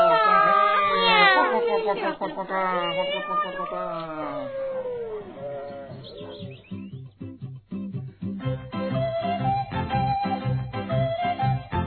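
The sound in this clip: A voice imitating a cat's meow, a few drawn-out, wavering meows, followed by rhythmic music with a steady beat.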